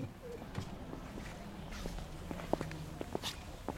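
Footsteps walking across a museum ground floor among about 25 to 30 aircraft, a series of soft irregular steps at a fairly low level over a faint background.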